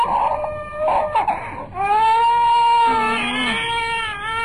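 A small child cries out in a shrill, tearful wail: a few choppy sobs first, then a long, high, sustained cry.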